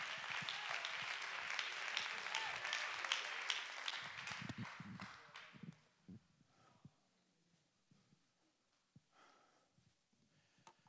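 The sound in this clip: A church audience claps their hands in praise, a dense, loud wash of applause for about six seconds that then dies away, leaving only scattered faint sounds.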